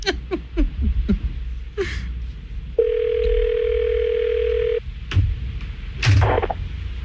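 A telephone ringback tone sounds while a call is being placed: one steady tone of about two seconds, with short breathy gasps and nervous laughter before and after it.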